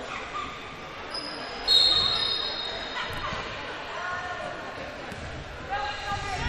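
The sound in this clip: A basketball is dribbled with the right hand and then the left across the court during a high school game, giving repeated bounces under a commentator's voice, with sharp shoe squeaks and gym crowd noise.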